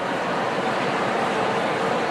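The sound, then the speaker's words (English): Dense, steady roar of a simulated crowd of a million people all talking at once, the countless overlapping voices blurring into a continuous wash like rushing water, with no single word standing out. “Here's the sound of one guy talking. So in every day, you can count on it. Now, 100 people. And with a little help from technology, we can approximate a million.”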